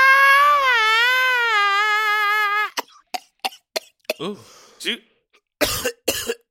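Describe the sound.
A person coughs on a piece of fake bacon stuck in the throat. A long, strained, wavering vocal whine comes first, then many short, sharp coughs and throat-clearing hacks in an uneven rhythm.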